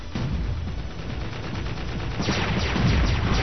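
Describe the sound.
Mortar fire in a capture-the-flag video game: a dense, continuous rumble of blasts with sharper bursts gathering toward the end.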